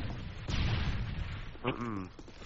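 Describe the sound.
ACR rifle gunfire in a video game erupts half a second in as a sustained, loud, noisy burst of shots, with a voice briefly cutting in near the end.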